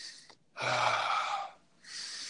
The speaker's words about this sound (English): like hardcore power breaths in, hard power breaths in, and then letting it go, not pushing out, but letting it go until your whole diaphragm has no air